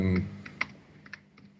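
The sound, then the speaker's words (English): Someone types a name on a computer keyboard. A brief voice opens, then a few sparse, light keystroke clicks follow at uneven intervals over a faint background. “So let's say, if I start typing my name, it'll automatically start off.”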